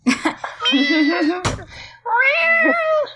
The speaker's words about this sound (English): Oh my goodness. The cats are getting fed right now.